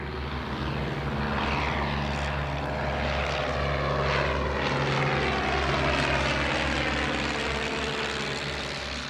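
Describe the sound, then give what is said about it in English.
Steady droning of a de Havilland Chipmunk T10 propeller aircraft, a buzzing engine note with strong harmonics that swells slightly in the middle and eases toward the end. “It was the humble de Havilland chipmunk, T10.”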